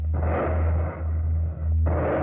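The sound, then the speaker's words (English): Heavy gunfire from a ship's force during a British commando raid in a wartime radio drama: a continuous, loud roar of firing over a deep steady rumble, with a few brief dips before another burst swells up near the end. “They've spotted us. Lie flat. We're about to open fire.”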